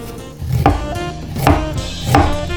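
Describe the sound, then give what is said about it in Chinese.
Three distinct knife strokes slice through peeled ginger, each a short, dull knock, spaced roughly evenly. “姜去除外皮，然后切片。”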